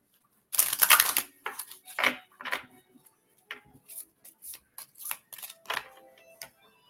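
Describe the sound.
A tarot card is drawn from the deck with crisp clicks, snaps and papery riffles. A dense flurry comes first, followed by many scattered lighter ticks and rustles. The handling is fairly quiet and no voices are heard.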